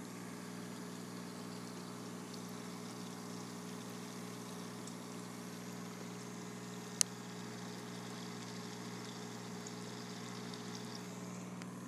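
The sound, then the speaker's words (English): An ozone generator runs with a steady, low electrical hum that holds an even level throughout, broken once by a single sharp click partway through. “But first, 15 seconds of the ozone generator doing its magic.”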